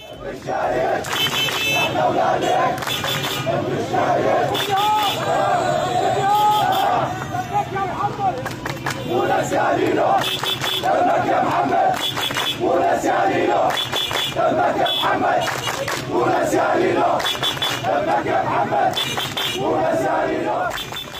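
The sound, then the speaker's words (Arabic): Protesters chant slogans in unison at a vigil outside the home of a martyr of the Syrian revolution, loud repeated rhythmic phrases from a large crowd that continue without pause throughout. “وقف المشاركون رافعين هتافات أحيت ذكرى الشهيد”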